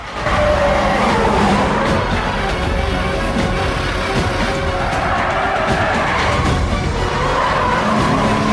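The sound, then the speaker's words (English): Engine roar and skidding tires from black SUVs racing after a taxi in a chase; dense, loud vehicle noise runs without a break, with tire squeal mixed in. “Now in the black SUVs, they race after Jack's taxi.”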